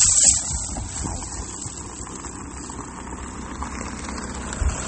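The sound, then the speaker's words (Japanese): A car passes by on the road with a steady engine rumble and tire hiss that fills the whole clip. The level stays fairly even, with a slight swell at the start and again near the end, and no voices. “あ、車が来たのでちょっと急ぐ”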